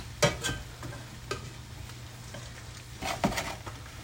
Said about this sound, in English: So I gotta let this egg firm around the edges.